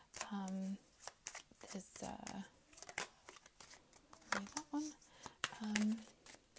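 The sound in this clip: Tarot and Lenormand cards being shuffled in a run of dry riffling and flicking bursts, some quick and some longer, with a voice sounding at moments between them.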